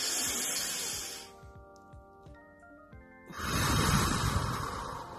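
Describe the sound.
A deep breath out is a long, loud airy rush of exhaled air near the end. Softer breath noise comes first, and a quiet stretch with sustained steady tones lies between.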